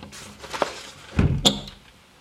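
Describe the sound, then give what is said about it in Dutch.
A window is shut because someone is sawing nearby: a soft knock, then a heavier thud and a sharp clack, fairly quiet with no speech. “Ik doe even een raam dicht, er staat iemand te zagen hier.”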